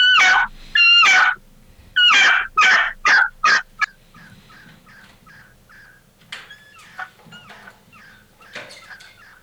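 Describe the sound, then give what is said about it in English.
A hand-held turkey call imitates a turkey's cadence, opening with a run of sharp, loud, rasping yelps. It then trails into a longer series of softer, fainter clucking notes. “So to take that a step farther, then you have to put that into some sort of a cadence that sounds like a turkey.”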